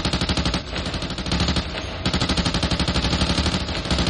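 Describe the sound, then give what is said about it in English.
Sustained gunfire with bullets striking the side of a hatch, a dense, loud, rapid barrage of shots that barely lets up, with no voices. “you just hear a couple more bullets just impacting the side of the hatch that this thing came out of”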